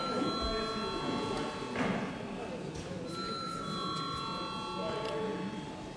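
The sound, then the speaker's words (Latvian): A bell rings in a parliament chamber to call members for registration. Its steady, high tones come and go in long stretches over a constant murmur of voices. “Lūdzu zvanu reģistrācijai.”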